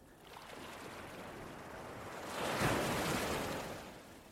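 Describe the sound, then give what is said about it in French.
Small waves lapping on a sandy beach in a calm sea, a soft continuous wash of water that swells gently past the midpoint and then eases off, faint and unhurried. “La mer est calme quelques vaguelettes se déposent sur le sable tout le long de cette plage.”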